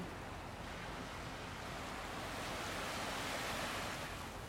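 Ocean waves wash along a Bahamas shore in a steady, full whooshing and fizzing surf that swells slightly louder toward the end, with no voices.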